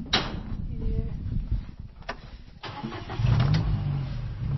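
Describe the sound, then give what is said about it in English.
A Gator utility vehicle engine starts on a drought-hit farm with wheat and soybean fields, cranking and catching into a steady mid-pitched idle, with voices talking over it. “Back in Mexico, Cawthorn drives her Gator utility vehicle past her fields of wheat and soybean plants.”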